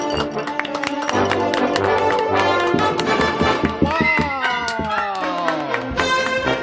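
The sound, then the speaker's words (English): A street crowd on Main Street in downtown Los Angeles cheers and whoops, with many overlapping shouts, scattered claps and rising, excited voices, loud and continuous throughout. “in the middle of Main Street, downtown Los Angeles, and the crowd is going bananas.”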